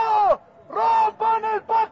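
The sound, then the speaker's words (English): Angry chanting from a crowd of protesters near the presidential palace: loud, rhythmic bursts of voices in unison separated by short pauses. “But as the crowd gets closer to the presidential palace, the chants grow angry.”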